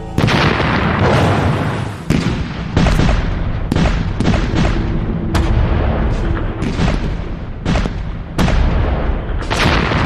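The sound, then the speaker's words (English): Heavy artillery bombardment of First World War German defensive positions along a canal, with many deep booms and sharp blasts. They come in rapid, irregular succession over a dense, continuous rumble, loud throughout and with no voices. “But Monash's powerful artillery is pulverizing German defenses right along the San Quentin Canal. Every kilometer is hit with 250 shells.”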